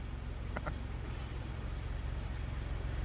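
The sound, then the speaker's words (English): A car drives up at the end of a film scene, heard as a steady, low engine rumble that holds at an even level through the whole clip. “And that's John Hamm driving up at the end of that scene.”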